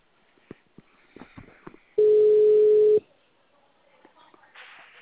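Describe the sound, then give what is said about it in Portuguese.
A telephone dial tone returns on an auto-dialer line. It is a steady, loud single-pitched tone lasting about one second, between stretches of faint voices and small noises. “Agora que voltou o discador aqui, peraí.”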